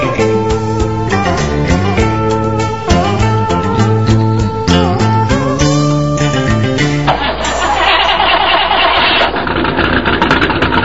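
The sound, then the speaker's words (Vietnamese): A vehicle engine starts and revs noisily after a stretch of music. It then settles into a loud, steady rumble. “Xe rồ máy om sòm”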